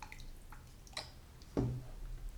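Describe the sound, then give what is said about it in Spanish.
Prepared chlorine dioxide liquid being dripped out: a few soft, quiet drips and small splashes, spaced apart, with no talk over them. “Este es el dióxido ya preparado y lo voy a soltar aquí para que vean el color.”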